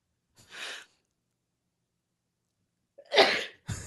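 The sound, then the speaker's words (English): A person sneezes: a short breathy intake comes first, then after a quiet pause a loud, sharp, explosive burst, followed by a brief trailing sound. No other noise is present between the bursts. “I'm gonna sneeze.”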